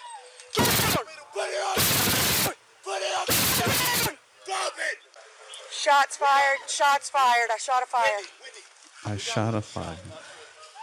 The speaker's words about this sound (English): Shots fired. I shot a fire. Oh, he's dead.